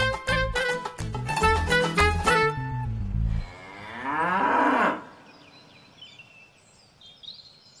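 A water buffalo moos once, a single long, loud call. The buffalo is being photographed beside a farmer for a government insurance claim.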